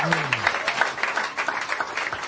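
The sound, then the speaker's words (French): A church audience claps along during a praise service, producing a brisk, even rhythm of many hands. A voice sounds briefly at the start. “Let us clap unto the Lord.”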